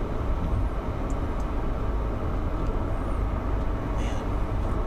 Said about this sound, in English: man, nice amount of traffic again. This is kind of annoying. Stupid car.